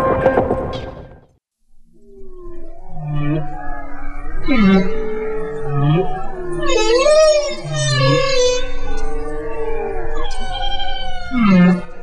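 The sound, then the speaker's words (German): Humpback whale song: drawn-out moaning tones with swooping upward and downward pitch glides, mixed with low grunts and higher whistle-like cries in a continuous sequence. “Was Sie da gerade gehört haben, das war der Gesang eines Buckelwals.”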